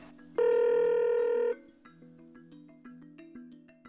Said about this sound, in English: It's dialing.